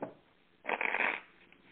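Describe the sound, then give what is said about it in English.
Tarot cards are shuffled and drawn, making a faint, brief burst of rapid papery riffling that swells for about half a second before fading back to quiet. “All right, I'm drawing your cards.”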